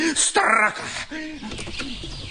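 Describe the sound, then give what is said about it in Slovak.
A magpie's harsh, rattling call bursts out briefly near the start, loud and buzzy, then gives way to people talking. “Zasa tá straka. To sa nedá vydržať. Tu sa jeden nevyspí.”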